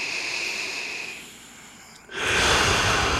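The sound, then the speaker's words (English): A deep breath taken as a calming pause: soft, airy breath noise that drops away, then surges abruptly into a louder, sustained rush of air through the second half, with no voices. “I just want to take a deep breath”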